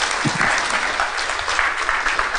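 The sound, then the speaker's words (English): Audience applause during a Sunday morning church service, a steady wash of clapping hands that holds evenly for the whole stretch without talk. “Would you give him a hand?”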